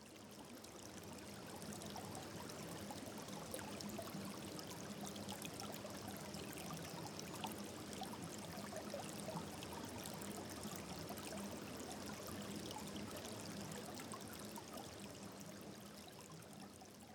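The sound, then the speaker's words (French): Water flows gently and steadily through a glacier-melt irrigation channel, a soft continuous babbling trickle that stays even and faint from start to finish. “Il sert à amener l'eau de la fonte des glaciers vers la vallée pour l'irrigation. Écoute le son de l'eau qui coule tranquillement.”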